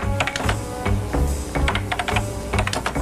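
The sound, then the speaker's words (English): Typing on a computer keyboard: many quick key clicks in uneven bursts and short pauses, over a steady low background hum, without talk. “Literally 55 minutes of her just typing. You hear typing sounds?”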